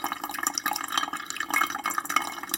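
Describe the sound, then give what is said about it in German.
Water is poured over an unbleached natural paper filter and drains through it steadily. It makes a continuous soft trickle and splash with no clear pauses. “gießen gleichmäßig Wasser hinterher, bis wir auf der gewünschten Menge sind. Mhm. Das fließt jetzt deutlich schneller durch, als wenn ich Kaffee mache.”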